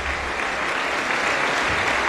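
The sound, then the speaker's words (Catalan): Concert audience applause for an orchestra, a dense, steady roar of many hands clapping that holds at an even level for about two seconds. “Gràcies per vostres aplaudiments, gràcies per assistir, gràcies per estar aquí.”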